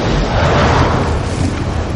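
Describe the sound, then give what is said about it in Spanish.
Napalm bombs explode over a burning jungle in a loud, sustained roaring blast of deep rumbling noise that holds steady for the whole moment. “bombas de napal extienden sus lenguas de fuego pisándole los talones.”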